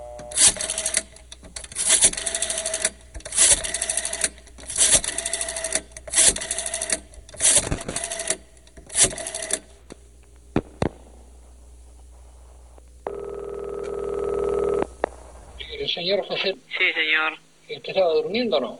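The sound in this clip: A telephone call is placed: many rapid mechanical clicks come in rhythmic bursts, then a steady buzzing tone holds for a couple of seconds, and a voice speaks briefly at the end.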